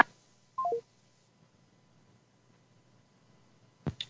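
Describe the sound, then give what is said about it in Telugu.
Electronic telephone tones sound as a call is cut off: a quick descending three-note sequence near the start, then near-silence, then a brief sharp tone burst just before the end. “Call cut అయిపోయింది madam గారిది”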